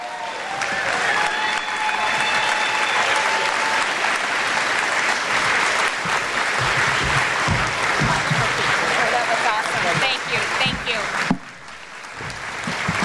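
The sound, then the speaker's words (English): Crowd applause at a political rally for the governor of Iowa: loud, sustained clapping for about eleven seconds, then dropping suddenly to a quieter patter. “Let's give another big round of applause for Governor Greitens.”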